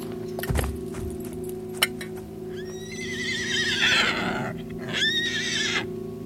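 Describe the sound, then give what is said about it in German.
A frightened, trembling horse neighs loudly after its rider slides from the leather saddle. It lets out two shrill, wavering whinnies, the second shorter, after a few sharp knocks and clatters. “Das Ross sprang vor, blieb zitternd stehen und wieherte so schrecklich, als riefe es nach Hilfe für seinen Herrn.”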